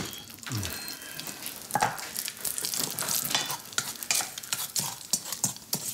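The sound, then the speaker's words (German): Bacon frying in a pan gives a steady sizzle packed with crackles and sharp pops that come irregularly throughout, with no voices. “Was riecht hier eigentlich so? Ach, auch das noch, der Speck. Ich wollte Rührei und Speck machen.”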